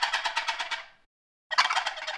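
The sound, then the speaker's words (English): Turkey gobble imitated on a box call: two bursts of rapid, raspy rattling pulses separated by a brief pause, loud and alone with no talk. “So I think every turkey hunter should have a box call in their arsenal. Don't laugh at this. I'm going to try to do the gobble.”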